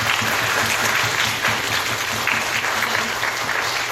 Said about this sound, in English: And then we're going to clap lightly. All right. And then we're going to clap really hard.